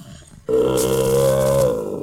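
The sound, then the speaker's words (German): A bear growls in one loud, deep, sustained roar lasting about a second and a half, then trails off into a lower fading rumble. “Hilfe! Ein Bär! Er will uns fressen!”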